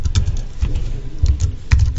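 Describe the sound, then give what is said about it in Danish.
Quick keystrokes on a computer keyboard as a username, an email address, is typed in, a fast irregular run of many light clicks with no talk. “Og skriver brugernavnet, og det var altså UCSJ-mailadressen.”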